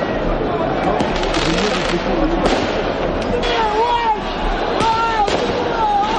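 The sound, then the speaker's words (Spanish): Riots in France after the Paris Saint-Germain Champions League final win bring loud fireworks and firecrackers: rapid pops and bursts with whistling rockets. A dense, noisy crowd roar continues underneath throughout. “El sonido de esos disturbios”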